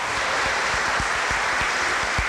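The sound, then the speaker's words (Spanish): A church audience at a Sunday service applauds the fathers present, a continuous hiss of many hands clapping at a steady level, with a loose rhythmic pulse of louder claps running underneath. “mujeres, denle un aplauso a estos papás que están aquí.”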